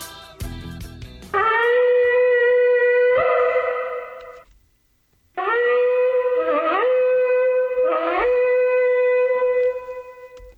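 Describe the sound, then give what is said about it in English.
Two shofar blasts sounded for Rosh Hashanah ring out as long, loud, reedy horn tones separated by a short silence, the second with upward warbling breaks in pitch, preceded by a brief noisy burst. “That is the sound of the shofar blast.”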